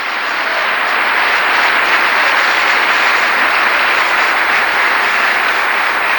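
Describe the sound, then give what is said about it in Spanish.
Applause from a church audience during a teaching service: thick, continuous clapping that stays loud and even for about six seconds. “Un aplauso para él.”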